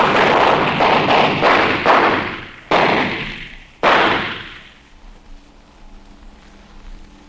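Gunshots fired at a suspect behind a car: two sharp, loud blasts, each with a booming decay, following a stretch of dense rumbling noise, then dying away to near quiet.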